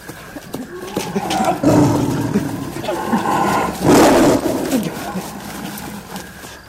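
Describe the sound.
A tiger roars in a few loud, rough bursts over a constant noisy background, with the strongest roar near the middle and quieter growling between.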